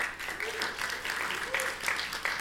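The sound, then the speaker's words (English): An audience applauds after baptisms at a church service. The clapping from many hands is steady and fairly faint, rising and falling slightly over its length. “Enough clapping, stop.”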